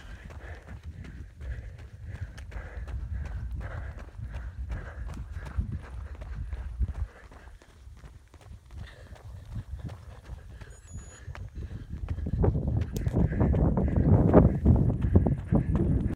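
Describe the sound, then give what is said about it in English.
Footsteps of a person out on a run: many steady, rhythmic footfalls thud along evenly throughout, with a low rumbling background that grows louder toward the end. “All right, so I'll continue to record a little bit more of my run.”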